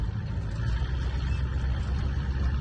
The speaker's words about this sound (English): Nearby, someone drives the 50s Oldsmobile through the neighborhood.